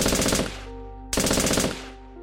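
Gunfire from a soldier carrying out an execution: two loud bursts of rapid automatic shots, the second starting about halfway through. Each burst fades into a ringing decay.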